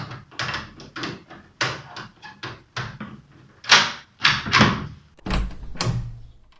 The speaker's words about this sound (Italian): col passepartout universale proviamo per non sfondargli la porta giusto il giorno prima del matrimonio.